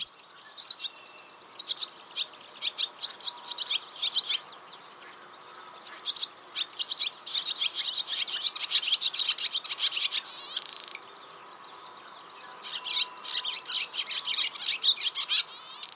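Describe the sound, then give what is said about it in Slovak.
A swallow sings and chirps in quick bursts of high, thin twittering notes that come in clusters separated by short pauses. The song is faint and there are no voices. “A ako taká lastavička znie? Môžeme si ju vypočuť na tomto mieste.”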